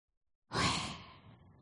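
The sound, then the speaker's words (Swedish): A voice pronounces the name Yahweh without vowels, imitating a breathing sound. After silence, a single breathy, sigh-like exhale starts abruptly and then trails off softly. “Yahweh speglar ett andningsljud när det uttalas. Om man uttalar det utan vokaler. Ska vi testa?”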